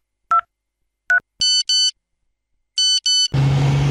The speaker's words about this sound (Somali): telefoonkiisa ayaa shanqaray